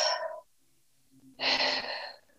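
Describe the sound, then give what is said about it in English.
Two deep breaths during a guided breathing exercise, each a soft airy rush separated by a quiet pause of about a second. The second breath is fuller and louder, and no one speaks. “So I want you to take a deep breath with me.”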